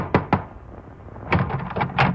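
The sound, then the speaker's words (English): Two sharp knocks on a door come in quick succession, brief and fairly loud, followed by softer muffled movement with no talk. “Your hand trembles as you knock on the door.”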